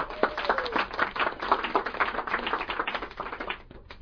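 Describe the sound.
Audience applause welcoming a guest speaker to a talk on accessing inner wisdom, a lively, crisp patter from a modest crowd that holds steady, then thins and dies away near the end.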